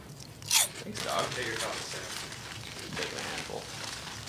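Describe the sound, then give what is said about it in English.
Crunchy chips being eaten: one sharp, loud crunching bite near the start, then softer chewing while people talk. “I was hoping you'd keep talking and do your review, but you just kept eating the chips.”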